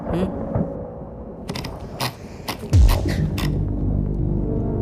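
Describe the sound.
Thunder during a thunderstorm, heard first as a few sharp crackling bursts and then as a loud, deep rumble that swells and holds steadily to the end.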